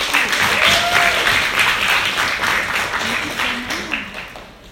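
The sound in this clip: An audience applauds to welcome a speaker with sustained, steady clapping that eases slightly toward the end, while a few faint voices rise above it.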